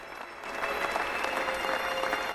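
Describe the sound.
Guests applauding at an indoor gathering, a steady, continuous patter of many hands that swells after a quiet start and then holds even to the end.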